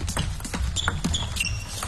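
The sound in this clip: Table tennis ball bouncing as Tomokazu Harimoto serves against Liang Jingkun in a team match against China: a few sharp, light clicks in quick succession over background crowd noise.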